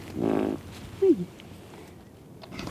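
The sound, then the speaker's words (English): A big, feisty chick being handled hisses in a raspy burst near the start, followed by a short squeaky call, then near quiet. “Oh, yes, you're very hissy, I know. It's okay. Oh my goodness, this chick is so feisty, it's fantastic.”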